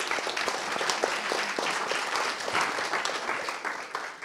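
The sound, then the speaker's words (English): Audience applause greets panellists at a Glasgow business events and conference industry discussion. Many crisp, overlapping claps hold strong throughout and then taper near the close. “So should we give a warm Glasgow welcome to our panellists?”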